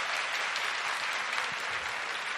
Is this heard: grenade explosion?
no